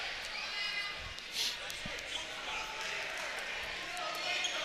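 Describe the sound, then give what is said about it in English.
A basketball is dribbled on a court during a district semifinal game. Its quick, thudding bounces repeat irregularly under a steady wash of crowd noise and voices. “Harbor Beach seems to be a lot of dribbling right now.”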